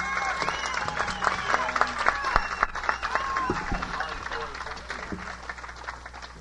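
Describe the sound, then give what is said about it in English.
Applause for a female performer, a continuous patter of clapping with crowd voices mixed in, staying fairly even before tapering slightly toward the end. “Wasn't that lovely? Let's give her another hand.”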